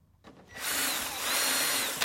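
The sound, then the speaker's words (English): A power drill bores into parts of long-range drones in a Ukrainian drone workshop. After a short quiet start, a steady, high, whining drill tone runs without a break to the end. “At a secret location, Ukrainian engineers work on the development of new long-range drones. They drill, glue, and assemble parts of a model called Raybird.”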